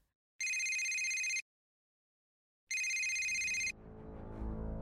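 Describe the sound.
A telephone rings as a call is placed abroad. Two bright, high electronic ring bursts of about a second each are separated by a silent gap. A low, rumbling line noise follows the second ring.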